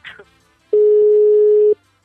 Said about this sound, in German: ich werde dann, glaube ich, mal in der Pizzeria anrufen